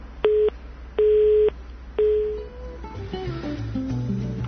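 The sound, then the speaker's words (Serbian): A telephone busy signal follows a dropped phone call: three steady, mid-pitched beeps with short gaps, the last one fading away before a jumble of other tones takes over. “Došlo je do prekida telefonske veze.”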